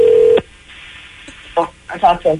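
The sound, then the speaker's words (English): A telephone sound: one steady electronic tone that cuts off abruptly, then a few short bursts of voices talking. “It's the phone”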